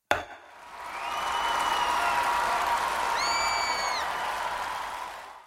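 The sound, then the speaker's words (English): A large crowd roars steadily and loudly throughout, with a few high whistle-like tones rising above the noise. “Do you hear the chants? CBA. CBA. CBA.”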